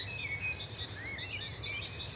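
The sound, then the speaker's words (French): Wrens and warblers sing in a garden beside an apple orchard, faint high-pitched warbling phrases and quick looping trills that overlap one another over a low, steady background hum. “Ah, les troglodytes, les fauvettes.”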